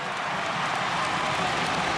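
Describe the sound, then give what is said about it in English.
Rugby league fans applaud the Parramatta Eels' defence with a dense, steady wash of clapping and crowd noise that holds at an even level throughout, with no distinct voices standing out. “the fans are up on their feet applauding this defence by the Parramatta Eels”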